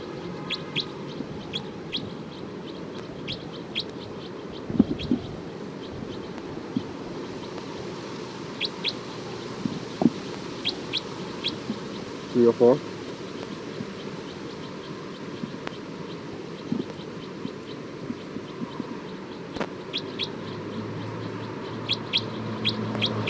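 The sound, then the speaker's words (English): Bird alarm calls: many short, sharp chirps scattered irregularly over a low, steady background hiss, some louder clusters standing out, with no voices. “alarm calls of bird 304. Recording bird 304.”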